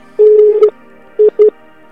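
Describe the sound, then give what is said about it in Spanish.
Call-waiting tones on a phone line signal a second incoming call: one long steady beep, a pause, then two short beeps of the same pitch in quick succession, sounding alone with no talk. “cuelga porque creo que te están llamando. Y se está juntando la segunda llamada.”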